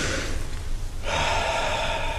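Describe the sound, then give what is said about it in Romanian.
A deep breath taken by a patient during a medical examination for front-line service: a soft, airy breath that swells into a louder, rougher rush of air about halfway through and holds steady. No talk is heard. “Ia, respira adânc.”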